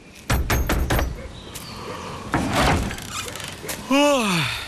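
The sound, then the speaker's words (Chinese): A door being opened, heard as a quick run of several sharp thuds, followed by a softer scraping rustle, with a brief high sliding tone near the end. “张淼，张淼，开门！”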